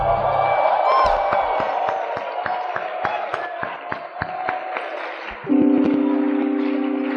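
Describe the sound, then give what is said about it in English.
A church audience shouts praise to the Lord at a 10th anniversary camp, with whoops and cries over a run of sharp claps, before a sustained musical tone swells in near the end. “Give the Lord a shout.”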